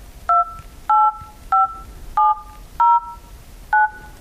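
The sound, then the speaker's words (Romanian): Keypad tones of a telephone number being dialed: six short two-tone beeps at an even, unhurried pace, standing out over a low, noisy background. “Și acum, hai fă numărul, da?”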